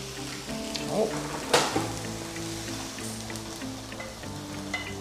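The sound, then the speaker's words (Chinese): Steady sizzling of food being stir-fried in a pan, with a few sharp scraping clatters near the start, carrying on as a continuous bright crackle throughout. “这应该差不多了，我们让它炒一下就可以上桌。”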